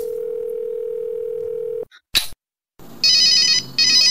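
A cellphone rings in an old house with two bursts of high, warbling electronic tone, after a steady low tone cuts off and a couple of sharp clicks.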